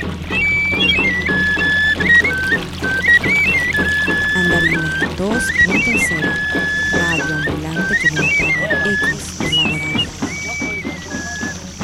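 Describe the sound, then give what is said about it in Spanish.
Small birds sing in a forest near a river. Bright, high chirping phrases repeat throughout over a dense, steady clatter of background noise. “estoy escuchando pajaritos”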